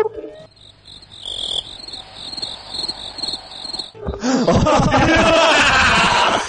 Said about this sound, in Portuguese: Essa vai ter que botar grilo.